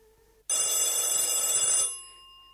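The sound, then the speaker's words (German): A telephone rings once with a loud, bright, rattling bell tone lasting over a second. The ring then fades into a brief, lingering hum, with no voices. “Endlich klingelte das Telefon.”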